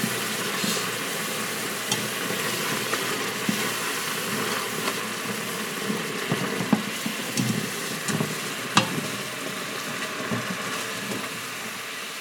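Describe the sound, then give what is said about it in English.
Sugar caramelizing in a pan while being stirred gives a steady, busy sizzle and bubbling, with scattered short clicks and scrapes from the stirring throughout. “Make sure you stir. And it's gonna turn pretty black.”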